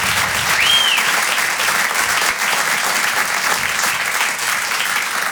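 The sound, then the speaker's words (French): Dense, steady applause from an audience at a French comedy show, clapping for the earlier performers. It stays loud and even throughout, with one short whistle rising from the crowd near the start. “est-ce qu'on peut applaudir tous les artistes qui sont passés avant moi? On peut les applaudir comme il se doit.”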